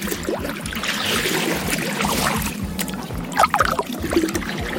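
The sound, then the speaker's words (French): A boat being rowed on water, with steady rhythmic oar strokes and continuous splashing and trickling water that stays fairly loud throughout. “Alors il y a de l'eau évidemment. L'eau, on l'entend, mais c'est bien quelqu'un qui rame.”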